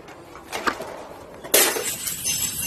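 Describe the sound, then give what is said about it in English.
Glass thrown and shattering in a common area: a smaller clink comes first, then one loud, sharp smash with a bright, hissing scatter of shards that lingers to the end. “Her daily antics of throwing glass in the common area.”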